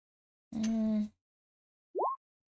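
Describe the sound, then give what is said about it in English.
Cat meowing: a longer, harsh, low-pitched cry comes first, then after a pause a short, fainter call that rises sharply in pitch, with no other sound around them. “Oh, hush, Mew Mew. That's the cat, the fiendish cat's name.”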